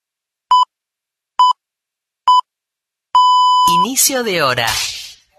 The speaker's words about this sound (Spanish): Inicio de hora. Este sonido alerta que ha comenzado una nueva hora.